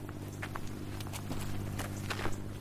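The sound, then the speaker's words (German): Footsteps of people walking cross-country over open, unfenced terrain on an organic olive farm, bounded by bushes. The steps are soft and irregular, crunching against a steady background noise. “Wir gehen querfeldein durchs Gelände.”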